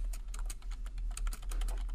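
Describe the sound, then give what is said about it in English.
Loud typing on a computer keyboard: a dense, rapid stream of sharp keystroke clicks at steady volume for the whole two seconds, with no voices. “Dang, you type loud.”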